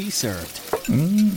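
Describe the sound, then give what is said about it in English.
A burger sizzles hot off a restaurant grill, a short hiss of frying under a few quick spoken words. “And that's a burger hot off the grill,”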